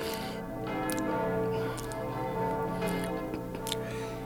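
Church bells of London ringing as a steady, faint wash of overlapping tones, with humming sustained bell harmonics and no clear separate strikes.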